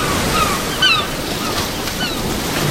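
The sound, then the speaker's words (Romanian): A storm begins outside with a continuous, rushing roar of wind that stays dense and fairly loud throughout, with no clear breaks. “Începe furtuna afară. Lumea parcă se năruie pentru a se naște din nou.”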